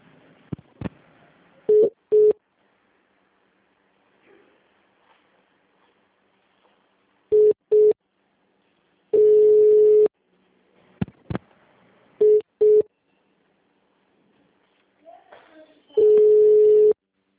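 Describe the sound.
Telephone tones on a line while a call is being transferred: several short beeps and a few longer steady tones at one pitch, separated by clicks and stretches of near silence.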